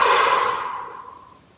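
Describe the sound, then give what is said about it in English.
A deep breath during a peace-focused chanting meditation, heard as one breathy, sigh-like exhale that starts strong and slowly fades over about a second and a half. “Breathe in, breathe out.”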